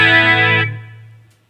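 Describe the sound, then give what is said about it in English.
Guitar chord played through an extreme chorus modulation effect, a thick, shimmering, wavering tone that rings loudly, then thins and fades away over about a second. “Let me make that a little more extreme so you can hear what it sounds like. Chorus is considered to be a modulation effect.”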